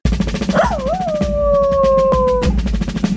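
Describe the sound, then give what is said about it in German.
A dog howls in one long sustained note lasting about two seconds. The note wavers at first, then holds a steady pitch and dips slightly before stopping, over a backdrop of rustling noise. “Also, du hast den Hund auch schon kennengelernt, der jetzt kommt.”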